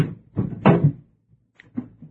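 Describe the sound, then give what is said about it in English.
An unlocked safe door is opened with a few short metallic clunks and rattles, followed by fainter clicks. “Now open the safe.”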